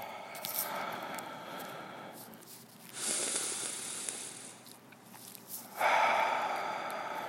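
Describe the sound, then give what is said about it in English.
Slow breaths drawn in through the nose and let out through the mouth during a guided breathing exercise: a few soft, airy hissing breaths, with longer, louder exhales swelling and fading at a relaxed pace and no talk. “So we're going to start off with the breath. So in through your nose and out through your mouth.”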